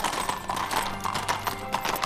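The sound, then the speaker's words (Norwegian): Horses' hooves clip-clop as riders leave a city, a brisk, steady run of many hoofbeats at an even rhythm with no talk. “Og ikke lenge etter red Paulus og Silas ut av byen.”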